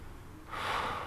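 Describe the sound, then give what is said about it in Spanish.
A deep inhalation, faint at first and then swelling into a louder, airy rush of breath about halfway through its single second. “Inhala bien profundo.”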